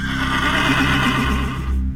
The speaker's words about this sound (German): Er kommt. Marengo. Ein Pferd.